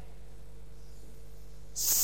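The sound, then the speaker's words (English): A voice imitates a snake's hiss: one short, sharp, breathy hiss bursts out near the end after near silence. “The hissing.”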